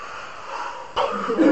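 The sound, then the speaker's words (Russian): A breathy exhale during a breathing exercise: a steady airy rush of breath that jumps louder about halfway through and stays strong to the end. “Выдох.”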